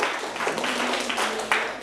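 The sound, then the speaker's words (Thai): Classmates clapping for a student in a lesson, a short, fairly faint patter of hand claps with a few sharper claps standing out. “ปรบมือให้เพื่อนถูกต้องเช่นเดียวกัน”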